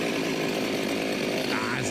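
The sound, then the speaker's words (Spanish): A voice imitates a chainsaw being started, making a buzzing, sputtering rasp that holds steady for about two seconds with no break. “Como cuando van a prender una motosierra”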